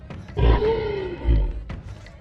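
A creature roars twice in deep, growling bursts with a rough, tonal throatiness, each swelling and then fading, with a short harsher burst near the end.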